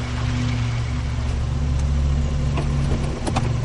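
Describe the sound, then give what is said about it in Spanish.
A car pulling up and stopping in front of a building at night gives a steady, low engine rumble that holds at an even level throughout. “De noche, un automóvil se detiene ante un edificio.”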